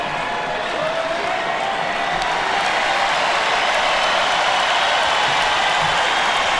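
Concert crowd applauding and cheering as an elderly artist walks to center stage and waves, a continuous dense roar of clapping and cheers, steady and loud from start to finish.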